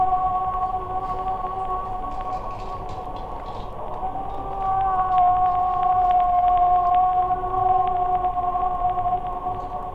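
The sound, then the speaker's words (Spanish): A humpback whale sings in long, drawn-out moaning tones. A brighter sustained tone swells in midway, all set against a steady hissing background with no voices. “Bueno, este es el canto de una yubarta, una ballena jorobada.”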